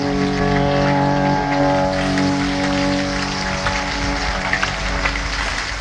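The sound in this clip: Rain falling, a dense, steady hiss of drops that continues unbroken and fairly loud throughout, with no voices.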